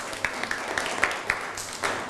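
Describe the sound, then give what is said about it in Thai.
Classroom applause for classmates, heard as a thin run of separate hand claps spaced at a fairly steady quick beat over low background noise. “เก่งมากปรบมือให้เพื่อนหน่อยครับ”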